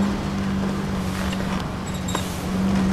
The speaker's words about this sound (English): At least his car's good for something. Careful, don't crash.